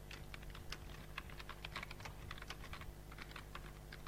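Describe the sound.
Typing on a computer keyboard while writing program code: many quick, light key clicks in an uneven, continuous patter, faint over a steady background hum, with no talking.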